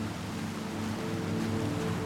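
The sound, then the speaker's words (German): Sea waves washing onto a sandy beach make a steady, continuous rush and hiss of surf. No single breaker stands out, and there are no voices. “Die Wellen des Meeres tragen immer mehr die Spuren des Tages am Strand davon.”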